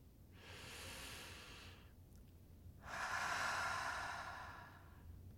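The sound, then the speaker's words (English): A person takes a slow, deep breath as part of a guided settling-in: a soft, drawn-out inhale, a brief pause, then a longer and louder exhale, with no speech. “Let's take a deep breath.”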